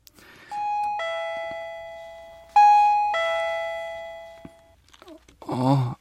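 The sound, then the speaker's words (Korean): A house doorbell rings twice, each time with a ringing two-note ding-dong chime that lingers and slowly decays. A brief voice is heard at the very end. “대강의 주소만 알고 있던 데이빗은 집마다 초인종을 누르며 나탈리의 집을 찾았다.”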